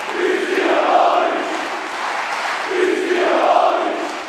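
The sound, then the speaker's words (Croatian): NK Osijek supporters, including the Kohorta fan group, chant and cheer a festive welcome for a newly signed striker in the city garden. Massed voices rise and fall in two broad, loud swells. “Članovi navijačke skupine NK Osijeka, Kohorta i brojni drugi navijači priredili su Kristijanu Lovriću neočekivano svečan doček.”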